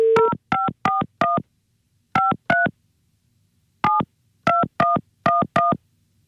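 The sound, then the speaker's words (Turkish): A telephone number dialed on a keypad: eleven loud, clean dual-tone beeps in three groups of four, two and five, separated by short pauses, with no voices. “Evet arıyorum ben şimdi. Tamam. Arıyorum.”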